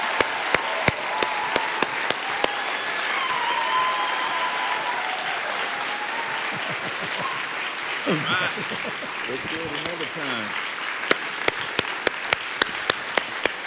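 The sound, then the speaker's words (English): Audience at San Jose Cathedral of Faith church standing to applaud a welcome for Brian Welch, founder of Korn: sustained, dense clapping with sharp individual claps standing out, and a voice speaking over it midway. “I invite you to stand with me, please, and I want us to give a great big San Jose Cathedral of Faith welcome to Brian Welch.”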